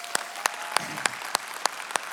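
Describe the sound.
Audience applause for first-time guests being welcomed, with sharp claps landing in an even rhythm, about seven clear beats over a soft wash of clapping.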